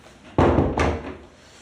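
A door is pushed shut as a woman steps into the room: one heavy thud followed a moment later by a second, softer knock of the door settling, then quiet.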